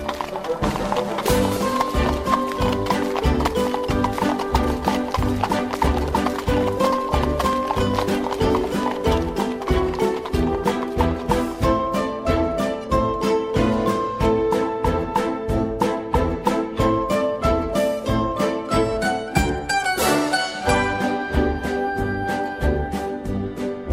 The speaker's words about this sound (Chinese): 皮诺丘要跟着一百位同样要去玩乐国的孩子一样，搭着一位矮车夫驾驶的马车出发了。